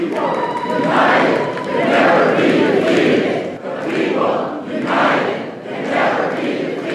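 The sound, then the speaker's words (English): Protesters pack the inside of a state legislative building, the General Assembly in Raleigh, during Moral Monday demonstrations. A loud, dense crowd shouts and chants in repeated rhythmic swells that rise and ebb throughout. “That's the sound of protesters packed inside the state legislative building.”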